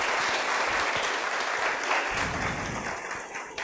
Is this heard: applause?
yes

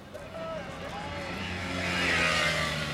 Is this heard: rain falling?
no

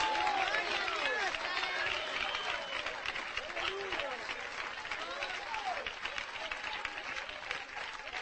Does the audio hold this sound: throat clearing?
no

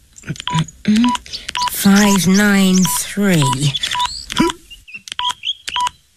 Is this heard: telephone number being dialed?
yes

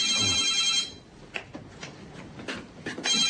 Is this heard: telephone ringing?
yes

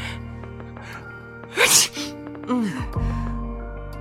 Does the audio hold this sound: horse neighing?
no

